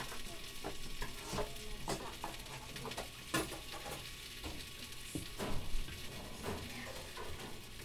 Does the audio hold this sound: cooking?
yes